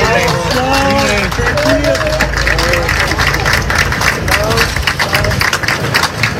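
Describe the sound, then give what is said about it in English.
Cheering and clapping from a rescue task force celebrating after two people were pulled from rubble just outside Caracas, Venezuela; shouting voices and applause stay loud and dense throughout. “That's the sound of Virginia Task Force 1 celebrating after two people were pulled from a rubble just outside Caracas.”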